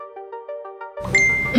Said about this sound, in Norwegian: Got a message.